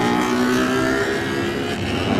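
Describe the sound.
A racing 350 cc motorcycle engine misses a gear, its loud, continuous high-revving buzz holding steady throughout with no pause.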